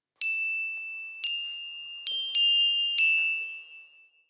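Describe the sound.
Small bells, played as a melodic percussion instrument, are struck five times, each strike ringing a single high, sustained tone that carries into the next before fading out at the end.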